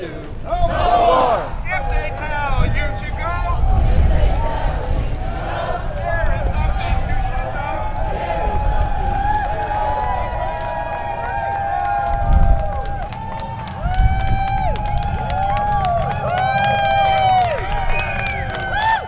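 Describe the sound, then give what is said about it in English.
About a hundred veterans and supporters chant as they march with flags and banners behind street sweepers at a protest. Many voices chant continuously, rising and falling, and the crowd noise stays dense throughout. “It was about 100 veterans and their supporters marching behind the street sweepers. But with all their flags, banners, and chanting, it seemed much larger.”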